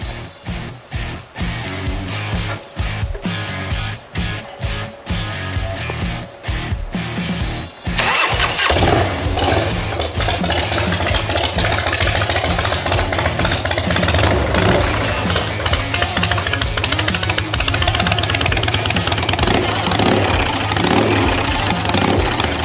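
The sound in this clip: A motorcycle engine starts for a test ride, with several sputtering, uneven bursts before it catches. It then settles into a loud, steady running roar.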